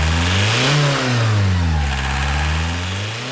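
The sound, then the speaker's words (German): A modified Golf TDI race car engine rated at 180 hp, running on rapeseed oil, roars loudly and steadily. Its pitch climbs sharply early on, sinks back, then rises again toward the end, with no voices. “Der liefert den Sprit für einen aufgemotzten Golf TDI, der sogar an Autorennen teilnimmt.”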